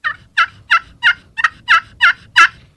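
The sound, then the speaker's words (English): A turkey call sounds a plain hen yelp: eight short, evenly spaced, raspy yelping notes in a steady rhythm, each clear and fairly loud against a quiet background. “a little bit more emotion to it than just a plain hen yelp, which would sound like this. A little shorter.”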